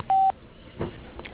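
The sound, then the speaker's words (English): An answering machine beep sounds before a caller records a message: one short, steady electronic tone lasting about a fifth of a second, followed by faint low line noise and a few soft clicks. “Please leave your name, telephone number, and a brief message after the beep”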